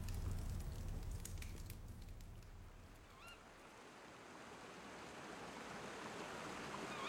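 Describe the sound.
A river flows at Mount Morris at ten at night, a faint, steady rushing wash that swells and dips slightly but never stops.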